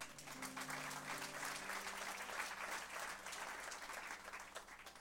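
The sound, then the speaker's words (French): A church audience applauds, producing a dense, sustained wash of clapping that carries evenly from start to finish without pause. “Vous pouvez acclamer le Seigneur pour ça.”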